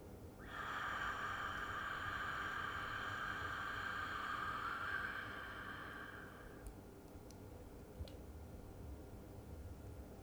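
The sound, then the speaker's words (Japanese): A deep breath drawn in through the nose and let out through the mouth during a guided breathing exercise, heard as one long, steady airy hiss lasting several seconds before fading to quiet. “最後もう一つ、鼻から大きく息を吸って、口から吐きます。”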